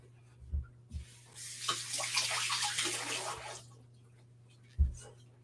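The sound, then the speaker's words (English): Hands are rinsed under a running tap: a couple of seconds of splashing water, framed by a few soft knocks before and one sharper thump after. “Gotta just rinse my hands really quick.”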